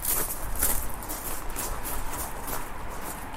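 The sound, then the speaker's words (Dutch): Footsteps walk over small pebbles, with many steady crunching steps in an even rhythm. “dan moeten we eventjes terug naar boven over kiezelsteentjes”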